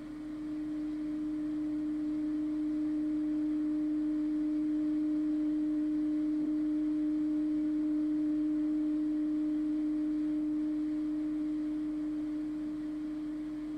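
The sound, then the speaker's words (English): A simple clear tone played into one ear: a steady, pure, moderately low pitch held evenly at constant loudness from start to finish, with nothing else heard. “Next, we put a simple, clear tone in one ear, like this.”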